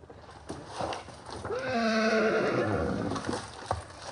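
Donkey braying in Brazil with parrots nearby: a single drawn-out harmonic bray lasting over a second, loud and strained, with a faint scrappy tail at the end.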